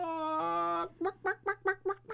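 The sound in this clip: A person imitates a rooster, holding one long, nasal crow-like note and then giving a quick run of short clucking bursts, alone and fairly faint.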